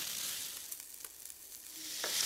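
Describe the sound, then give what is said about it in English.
Steady, dense sizzle of roughly sliced white mushrooms frying in a pan with zucchini and squash, a continuous crackling hiss with no pauses that grows slightly louder toward the end, with no voices. “I threw in a box of white mushrooms that I just roughly sliced. I'm gonna let these cook so the mushrooms give off a little bit of their liquid”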